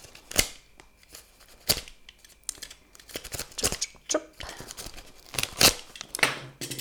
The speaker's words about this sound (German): Und als allererstes springt mir ein kleiner Umschlag ins Auge. Den öffne ich mal gerade.